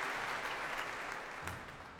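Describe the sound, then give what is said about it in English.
Concert audience applause as a symphony orchestra's leader takes a bow before taking her seat. The clapping is soft, steady and continuous, holding an even level with no voices over it. “That applause greets the leader of the BBC Symphony Orchestra, Anna Coleman”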